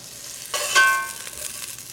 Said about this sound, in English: These carrots are nice and brown. It only took a couple minutes. That's what a hot, hot pan will do for you.